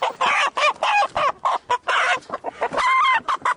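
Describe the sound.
Chickens clucking in a chicken coop where poultry is raised: many short, busy clucks in quick uneven succession, fairly loud and alone with no talk.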